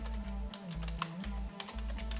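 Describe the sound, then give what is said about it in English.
A headline typed on a computer keyboard: many faint, quick key clicks scattered over a steady low hum that dips briefly at regular intervals. “The story is about peace talks in Egypt, so I'm going to type in peace talks, the headline,”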